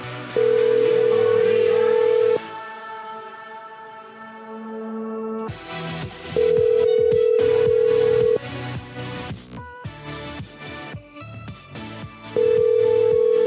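An unanswered telephone call rings out with a ringback tone: three long, steady tones of about two seconds each, separated by gaps that hold other sound.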